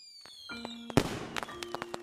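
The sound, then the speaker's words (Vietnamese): Fireworks popping and booming as households in a neighbourhood set them off early on the night of Tet: one loud boom, then a quick run of sharper pops and cracks. “Tối đêm đó, mấy nhà trong xóm đốt pháo bông sớm. Tiếng đì đùng lâu lâu lại nổ vang trời.”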